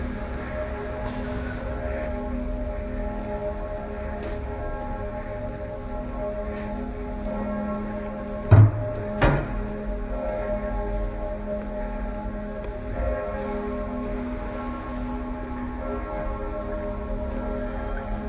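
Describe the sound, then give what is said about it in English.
Münster church bells ringing at midday in the old town, a deep, continuous peal of steady sustained tones with two sharp knocks near the middle. “the bells of the Munster are ringing.”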